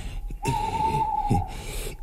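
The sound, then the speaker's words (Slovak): An owl hoots once, a clear, steady mid-pitched tone held for about a second over a low, constant background rumble. “No a to iba sova húka.”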